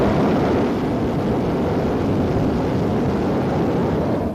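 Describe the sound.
A hot air balloon burner heats with a continuous, loud, roaring blast of flame that holds steady throughout, with no voices over it, as the balloon flies just above fir trees.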